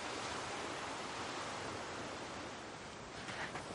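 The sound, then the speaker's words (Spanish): Sea waves wash onto a beach in a continuous, loud rushing hiss of surf, steady and unbroken with only slight swells in level, and no voices. “Las olas del mar bañan el cuerpo de Matai.”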